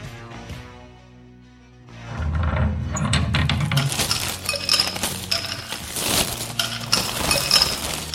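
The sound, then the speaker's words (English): A cold drink being taken from a refrigerated box and opened: clinks of glass and metallic rattles over a busy, sustained clatter, after a short quiet hum at the start. “This time I managed to get a refrigerated box full of Twinkies and vids, so let's crack a cold one.”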